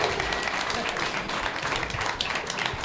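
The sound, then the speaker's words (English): A live audience applauds a guest at an in-person event with brisk, steady clapping, fairly loud throughout, with cheering and whoops mixed in. “Can we give him a round of applause?”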